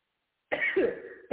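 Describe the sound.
A rough, harsh cough from a preacher who has a cough, breaking into a sermon; one strong burst is heard alone, with another just starting at the very end.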